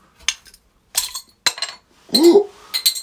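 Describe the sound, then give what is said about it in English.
Several sharp glass clinks and knocks come in separate bursts while a corked bottle of root beer is opened by a group of friends in a sauna. “I'm opening this with the boys. Crack it open, dude. Bro, the cork is gonna go flying somewhere.”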